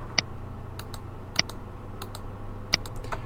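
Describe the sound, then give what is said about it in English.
Keys click on a computer keyboard as a message is typed into an email body. The clicks are sparse and irregular: a few sharp, louder strokes mixed with softer taps in a quiet setting. “give the message a subject and type your message in the body.”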